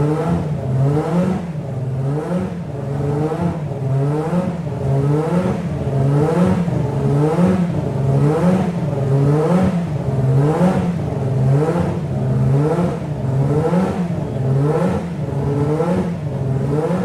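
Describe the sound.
Racing car engine at the Nürburgring circuit revving near 7800 rpm, a loud, harsh mechanical roar that surges and drops in a steady rhythm, about once per second, for many cycles without talk.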